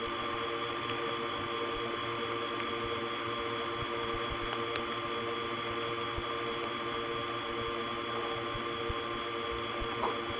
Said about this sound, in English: So much for quiet trunks to 289. This is actually quite noisy. It's even noisier than the M3 family.